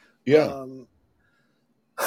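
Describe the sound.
A single short, voiced throat-clearing cough comes from someone with lingering post-COVID throat trouble. A brief rasp is followed by a pause, then talking begins.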